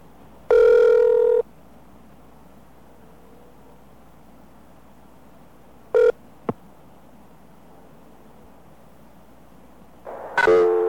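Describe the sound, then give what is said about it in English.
Telephone signal tones on a long-distance collect call: a longer tone near the start, a short beep with a sharp click midway, and another tone at the end, over faint line hiss. “Now, let's say you make a collect call on this service, just like we did with New York Telephone. This is what you will hear.”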